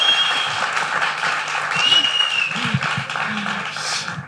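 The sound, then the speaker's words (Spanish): A studio audience claps to welcome a guest, a fairly loud, steady patter of many hands that eases slightly toward the end, with faint voices underneath. “que recibimos con este aplauso a la maravillosa Nieves”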